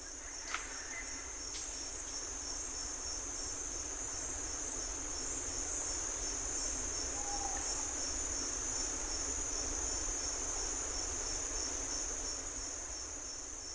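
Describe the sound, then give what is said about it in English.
Dense nocturnal insect chorus from a Panama forest, slowed down so ultrasonic calls become audible: continuous layered buzzing and trilling with sustained high whining tones, steady and unbroken, no voices. “This is a forest in Panama. It was recorded by Laurel Symes. Sound engineer Bill McQuay slowed her recording down so we can hear all the ultrasonic frequencies.”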